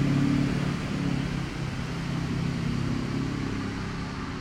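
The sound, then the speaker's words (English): Dually pickup trucks drive past with a steady, broad engine and road rumble, loudest at the start and then holding at an even level. “Damn vehicles. I am doing a podcast. Fucking dualies.”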